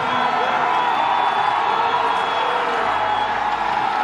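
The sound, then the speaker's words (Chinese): Italian spectators cheering at a ski race as their racer nears the finish: a loud, sustained roar of massed voices with a steady, continuous texture. “在我们评论席下方的观众席已经沸腾了，现场全是意大利的观众”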